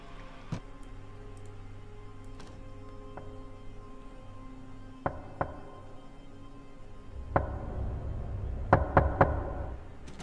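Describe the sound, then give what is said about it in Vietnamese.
Light knocking on a door: faint, sharp taps spaced well apart, then a quick cluster of knocks near the end over a soft background hiss. “Sau đó là vang lên tiếng gõ cửa rất nhẹ.”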